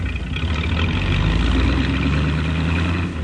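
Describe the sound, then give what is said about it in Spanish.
A car engine runs as the automobile creeps along the curb at a child's walking pace. It gives a steady, fairly loud low rumble and hum, constant throughout with no other sound. “Paul puso en marcha el automóvil y siguió bordeando la acera al paso del niño.”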